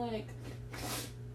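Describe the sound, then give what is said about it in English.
A single faint sniff from allergies, a short, breathy snort following a brief bit of voice. “I keep sniffling. I promise I'm not sick. My allergies just suck.”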